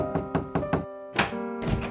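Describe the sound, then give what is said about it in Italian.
Knocking on the door of a study in a house in Fiesole, in the afternoon. Four quick, even knuckle raps, then a couple of heavier thumps, all over a steady tonal background. “Qualcuno bussa alla porta dello studio.”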